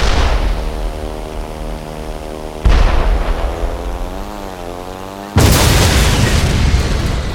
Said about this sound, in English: You shot it down. Was that some kind of death beam? Actually, it was a shoulder-launched portable air defense missile. Russian-made.